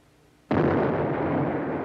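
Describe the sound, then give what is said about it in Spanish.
Cannon fire erupts during the bombardment of a city: after a quiet start, one sudden loud blast hits at about half a second and spreads into a sustained, booming roar that holds to the end. “El pánico se apoderó de la ciudad con los primeros cañonazos de Sherman.”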